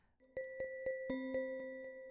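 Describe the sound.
A bell jingle marks the start of a show segment: a quick run of evenly spaced, bright chime strikes whose overtones ring on between hits, heard alone and fairly quietly.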